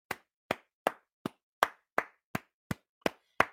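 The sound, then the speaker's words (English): Ten sharp hand claps ring out alone, slow and evenly spaced, each crisp smack separated by a short silence in a steady rhythm. “But this applause is for you. This applause”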